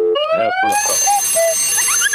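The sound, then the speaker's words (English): Cuckoo clock sound effect: a rapid mix of bright whistled tones, rising chirps and bell-like chimes, including two short, clear steady notes near the middle, all ringing together with no talk over them. “the cuckoo clock?”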